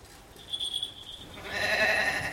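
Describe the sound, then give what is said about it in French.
A goat bleats alone, a thin high call followed by a fuller, louder, sustained bleat, both fairly quiet. “Voici ma nouvelle chèvre, Blanchette.”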